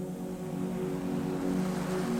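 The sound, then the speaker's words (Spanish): Faint, steady wash of a stormy sea and wind around a small boat, a continuous low rumble with no distinct wave crashes or creaks standing out. “El viento se levantó con violencia. Las olas comenzaron a crecer y la barca crujió como un árbol en plena tormenta.”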